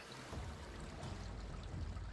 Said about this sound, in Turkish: Bu su buranın tek suyu olabilir.